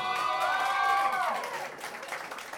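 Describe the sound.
An audience applauds a performer playing music in front of people for the first time. The clapping is sustained and fairly even, then thins to sparser claps near the end.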